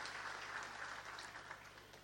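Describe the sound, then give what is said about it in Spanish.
A church audience at a Sunday mass applauds warmly to welcome guests and visiting priests, a faint, steady wash of clapping that holds throughout and eases slightly toward the end, with no voices over it. “los recibimos con un caluroso aplauso”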